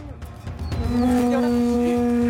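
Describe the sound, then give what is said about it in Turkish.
A cow mooing on a farm, one of a group that jumped a gate: after some brief rustling, a single long, steady, low moo holds loudly to the end. “bir grup inek kapıdan atlayıp her zamanki yollarından saptı.”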